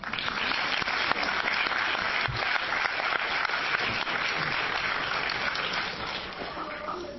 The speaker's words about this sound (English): your enthusiasm is very welcome and appreciated, but it cuts into someone's chance to speak, so just keep that in mind as you applaud.